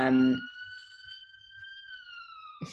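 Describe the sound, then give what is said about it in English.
An ambulance siren near a hospital wails as a steady, high, slowly wavering tone for a couple of seconds, with a voice heard briefly at the start and end. “can you hear the ambulance?”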